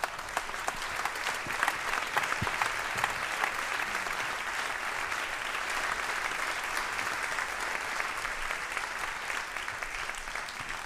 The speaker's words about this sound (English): And I'd like you to put your hands together and welcome Mr. Everett Green.